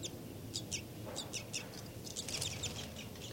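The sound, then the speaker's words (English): A bird's flight call series in a cell: many short, high chirps in quick, irregular succession, faint over a low background rumble. “Flight call series by 5-9.”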